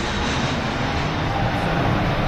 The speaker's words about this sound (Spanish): Varias miles de personas están expuestas a ruidos de entre 50 y 70 decibelios, que era el ruido del avión que escuchábamos antes. Este es el Madrid-Barajas,